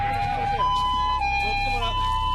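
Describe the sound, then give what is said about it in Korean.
An ambulance siren sounds at the seaside. Its loud two-tone wail switches between a lower and a higher note about every half second, with a low background rumble. “바닷가에울리는앰뷸런스소리신고를받고출동한구급대원들입니다”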